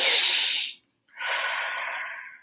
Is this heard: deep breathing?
yes